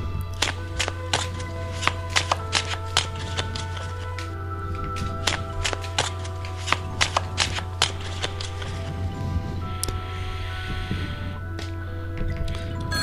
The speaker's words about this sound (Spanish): ¿Está barajando nuestras cartas?